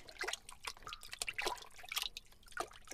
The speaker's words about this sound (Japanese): ローションとお湯を洗面器にたっぷり入れて、かき混ぜて